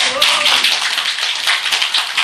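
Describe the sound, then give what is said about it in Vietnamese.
An audience at a Buddhist teaching session claps, a brisk, bright patter of many hands that stays fairly even, with a brief voice at the very start. “Vui, vỗ tay.”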